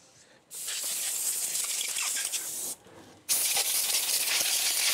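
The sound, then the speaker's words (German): Compressed-air blow gun hissing as it blasts the skin off fresh ginger. Two long, loud bursts of steady rushing air are separated by a short pause. “Dann jetzt hier die Luftdruckpistole nehmen. Und ich abziehe links. So, dass die Haut ein bisschen abzieht.”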